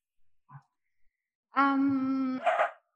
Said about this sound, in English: oh, so sorry about my dog.